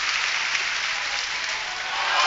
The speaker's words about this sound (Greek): Και ακούς το χειροκρότημα τώρα και από τον κόσμο που χειροκροτεί για τον Μίλτο Τεντόγλου.